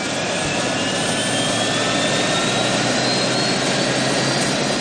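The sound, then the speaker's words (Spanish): A helicopter engine drones with a loud, steady whine and a constant roar throughout, in an action-thriller scene, with no voices. “El jefe se va hacia el helicóptero ante la mirada de Robert.”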